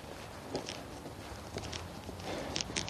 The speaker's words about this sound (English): I'm trying to hike relatively quickly here this morning